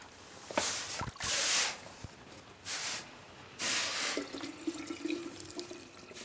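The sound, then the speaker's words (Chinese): Boiling water is poured from a kettle into a thermos flask in a few splashing, rushing bursts separated by short pauses, with faint drips and hiss between them; quiet overall. “水滚开了，把开水灌到暖壶里。”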